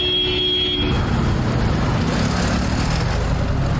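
City street traffic with cars and large trucks on a central Baku street near Nizami metro station, a steady loud roar of engines and tyres, with a brief high tonal whine at the start.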